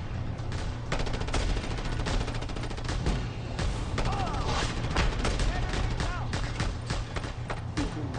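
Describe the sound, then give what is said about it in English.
Rapid video-game gunfire crackles in bursts of overlapping shots throughout, while players talk over the shooting. “Don't shoot your own guys.”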